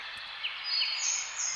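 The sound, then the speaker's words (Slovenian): Birds sing faintly in the background, a few high, quick chirps and sweeping tweets over a soft, steady hiss. “Raje zaprimo oči in poslušajmo predizborske napeve mojih prijateljic ptic v ozadju.”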